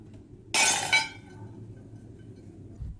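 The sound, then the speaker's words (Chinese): A single brittle crash of defective kiln-fired porcelain being smashed in a family porcelain workshop: one sharp shattering burst with a short jangling tail, then only a low steady hum remains. “每次窑炉烧出来肯定有不满意的作品，这摔了20多件”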